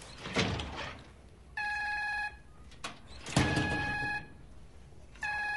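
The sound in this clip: A doorbell rings in a few short, bright electronic buzzes, each held for under a second, with dull thuds between them and no voices.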